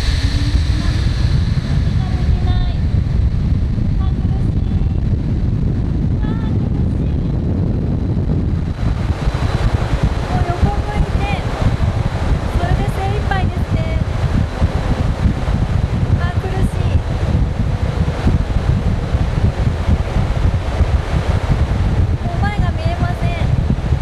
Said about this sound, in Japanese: 大きな扇風機のようなものがありまして、それが目の前にあります。あ、だんだん風が吹いてきました。一番強い。